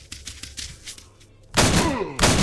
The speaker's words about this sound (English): the one I'm using is a shotgun. It's called the Armsel Striker.